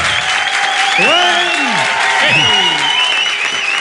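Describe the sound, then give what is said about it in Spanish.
Live studio audience at a radio show applauding and cheering, loud steady clapping with sliding whoops and whistles rising and falling over it. “Sí, ese, con ese entusiasmo del público que nos acompaña.”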